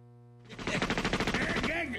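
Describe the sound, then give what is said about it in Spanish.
Gunfire crackles in a rapid burst of many shots fired in quick succession, loud and sustained like a machine gun. “¿Por qué estás tirando balazos?”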